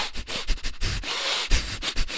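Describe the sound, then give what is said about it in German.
Rapid, chaotic breathing in and out through the nose during a breathing exercise, with many quick, irregular, rough sniffing breaths that vary in strength, unaccompanied by speech. “atmest du durch die Nase ein und aus und zwar so intensiv, so schnell und so chaotisch und so durcheinander wie möglich.”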